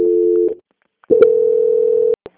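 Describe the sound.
Telephone call-transfer tones on a phone line: a short steady electronic tone, a brief pause, then a longer, slightly higher steady tone lasting about a second. A click and a faint blip follow.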